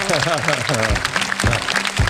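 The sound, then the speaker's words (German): Audience applause, a continuous wash of clapping that fills the moment while a voice talks over it. “Dankeschön, großen Applaus. Bravo.”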